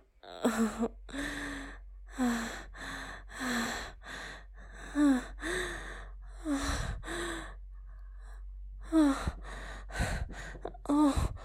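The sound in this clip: Heavy breathing and moaning: many deep breaths and drawn-out voiced moans, some rising and falling in pitch, follow one another in an uneven rhythm with brief pauses and no spoken words.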